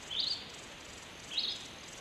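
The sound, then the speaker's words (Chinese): A small desert bird gives two brief, high chirps about a second apart. They are faint over a steady soft hiss. “小鸟， 小点声，别惊扰了它。”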